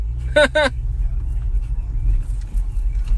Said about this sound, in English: Apparently, if you hear any noise in the background, that's me. I'm driving right now.